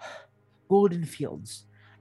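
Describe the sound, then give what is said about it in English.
A voice imitates a lean man gasping to catch his breath after barging into a room: a breathy intake, then short, strained, voiced panting sounds lasting about a second. “at some point, the doors open and you hear a lean male human barge in the room and catches his breath and goes like,”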